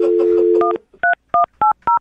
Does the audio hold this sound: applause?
no

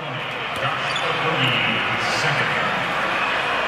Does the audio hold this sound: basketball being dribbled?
yes

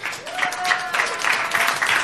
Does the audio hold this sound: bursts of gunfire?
no

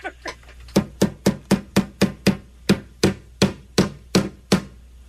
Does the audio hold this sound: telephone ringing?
no

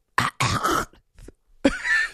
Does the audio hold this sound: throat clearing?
yes

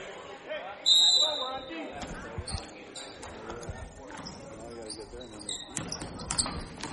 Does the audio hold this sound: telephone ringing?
no

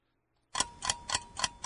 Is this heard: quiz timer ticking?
yes

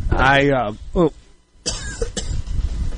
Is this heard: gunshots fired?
no

